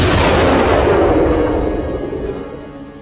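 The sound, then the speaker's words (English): Artillery opening a creeping barrage on the approach to a rebel stronghold: one heavy, loud blast whose broad rumble slowly fades over about three seconds, with no voices. “A creeping barrage targeting the approach to the rebel stronghold. On my order. That'll soften up these wretches before I send in the troopers. Artillery, fire!”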